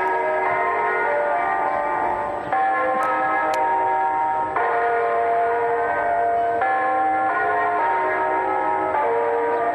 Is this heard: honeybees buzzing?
no

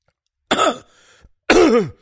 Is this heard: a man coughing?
yes

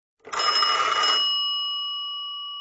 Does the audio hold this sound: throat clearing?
no

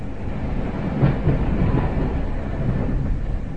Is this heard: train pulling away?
yes

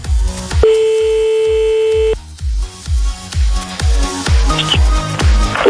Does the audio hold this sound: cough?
no

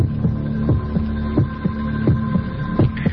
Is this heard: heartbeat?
yes

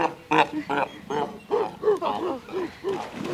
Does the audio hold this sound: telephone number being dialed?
no

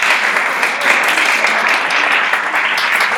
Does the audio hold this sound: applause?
yes

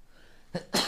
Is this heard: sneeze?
yes

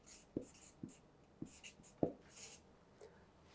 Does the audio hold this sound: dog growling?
no

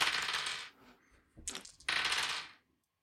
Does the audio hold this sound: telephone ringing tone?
no

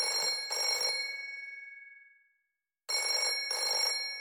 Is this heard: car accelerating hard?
no

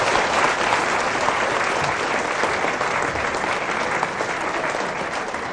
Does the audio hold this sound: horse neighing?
no

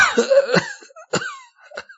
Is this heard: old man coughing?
yes

